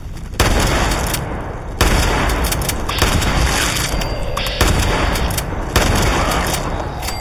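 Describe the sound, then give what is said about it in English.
Gunshots in a video game, fired at mutated rats: a few heavy, booming blasts at irregular intervals, each decaying into a broad rumbling wash that fills the gaps between shots. No voices are heard. “Got him. Shot him dead.”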